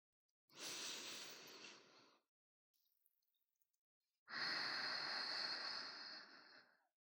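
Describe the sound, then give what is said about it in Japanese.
Two long, slow deep breaths, soft and airy, separated by a quiet pause with a few faint small sounds; the second breath is louder and lasts longer than the first. “次に深呼吸をしよう。普段から深呼吸やってないでしょ。”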